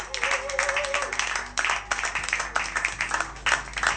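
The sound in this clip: A studio audience at a Christian radio station claps in uneven bursts, with voices mixed in among the handclaps.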